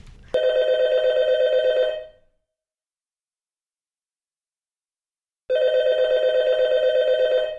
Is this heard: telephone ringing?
yes